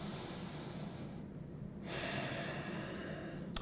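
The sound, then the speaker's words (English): Slow, airy deep breaths are taken while standing with the feet a short way from a wall and the head and shoulders pressed against it. The soft, breathy rush of air is heard alone, without talk. “I'm going to put my shoulders and my head against the wall, and I'm going to take some deep breaths.”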